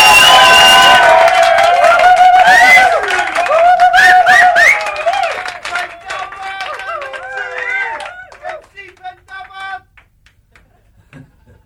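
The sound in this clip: A studio audience cheers and applauds with loud whoops and a clatter of clapping that gradually thin out and fade to near silence at the end.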